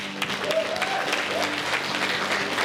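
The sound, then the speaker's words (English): Audience applause for people who have just prayed a prayer of faith: a dense, continuous patter of many hands clapping that holds an even, fairly loud level throughout. “Let's give those individuals a hand.”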